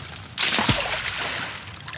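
A 250-pound-strength industrial magnet on a rope is cast into water, landing with a single sharp splash followed by softer sloshing that gradually settles.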